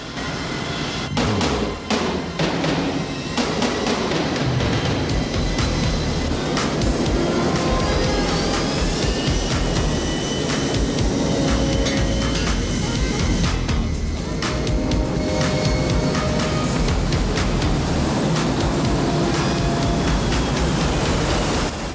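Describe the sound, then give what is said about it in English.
An airplane accelerates down the runway for takeoff with a loud, continuous engine roar that fills the whole stretch, broad and dense, with shifting engine tones woven through it. “The plane turns into the runway and the pilots accelerate into takeoff.”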